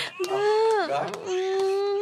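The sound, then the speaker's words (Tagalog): A baby crying: a single sustained wail that holds a steady pitch, dips briefly near the middle, then settles back into an even, drawn-out tone. “Daw kayo na pang hibi sa bata.”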